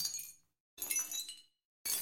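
Glass crashing and shattering with the initial attack cut away, three bright bursts of tinkling shards that fade in softly and decay, separated by short silences.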